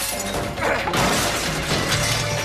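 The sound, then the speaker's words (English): Glass shatters loudly as a printer is thrown through it. The sudden crash gives way to sustained bright crackling and tinkling of breaking glass throughout. “Spencer throws a printer through the glass at her”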